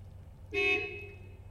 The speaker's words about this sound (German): Ein blödsinniges Auto hupt.